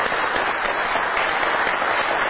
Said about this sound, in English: Let's give them a big round of applause, if you will.